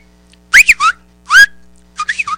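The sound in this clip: A person whistles a family's signature call in three bursts of short, bright, gliding notes, loud and clear against silence.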